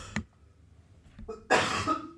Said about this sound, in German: Moment, ich muss wieder husten.